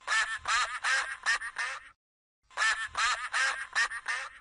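Duckling quacking in two quick bursts of bright, nasal quacks, about half a dozen each, separated by a brief silence.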